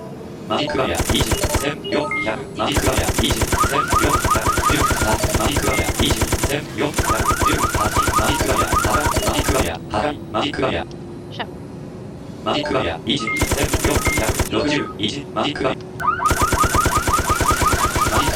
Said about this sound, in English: I hate this fucking machine gun. It's so weak.